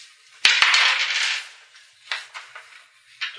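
Dice rolled during a tabletop role-playing game session: a sharp clatter that rattles on for about a second, then a few lighter clicks and a final tap.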